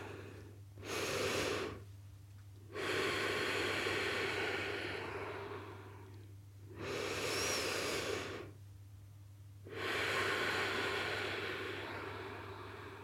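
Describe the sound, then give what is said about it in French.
Deep, slow breathing by someone seated upright and cross-legged, with a few long, hissing inhalations and exhalations separated by short quiet gaps over a steady low hum, no talking. “Je respire profondément 3 fois.”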